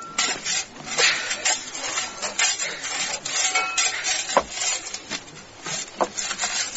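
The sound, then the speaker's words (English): Scraping and rubbing from digging up a grave in a graveyard in the early hours by lantern light, with a few dull knocks as the coffin lid is struck, continuing steadily throughout. “That's the coffin lid. Let's have it open.”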